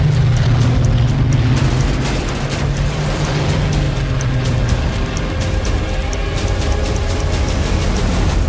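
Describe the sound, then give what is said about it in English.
Loud, dense rumbling of engines and deep booms from a trailer for the war film Dunkirk, a continuous heavy roar that hardly changes over its length. “I hope you enjoyed the trailer for Dunkirk, a film directed by Christopher Nolan”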